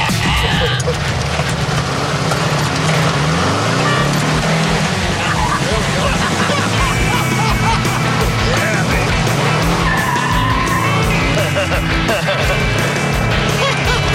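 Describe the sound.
A dune buggy's engine revs and roars as it drives on a road and spins a donut, with tire squeal and skidding mixed into the loud, continuous engine noise. The pitch swells and shifts throughout.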